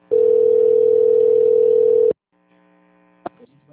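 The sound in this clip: A steady telephone line tone sounds while a call to an extension connects. It holds at one even pitch for about two seconds, then cuts off abruptly, leaving faint line noise and a single click.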